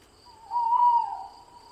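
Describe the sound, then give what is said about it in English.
An owl hoots at night: one soft, fairly low, slightly wavering hoot rises out of quiet and fades, over a faint steady insect chirring. “The only sounds you can hear is the owl and your breath.”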